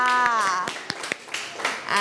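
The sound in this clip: Hand clapping in a science lesson praises a student's correct answer. Several sharp claps fall in a steady beat beneath a woman's speaking voice.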